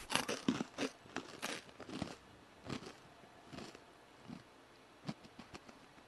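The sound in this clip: Someone chews crunchy food, making many crisp crunching bites that are loudest at first and grow fainter and more spaced out. Quiet background, no talking.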